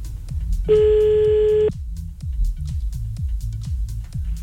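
A single steady telephone tone sounds for about a second as a call is placed to reach someone again, over a rhythmic low music beat that continues afterward.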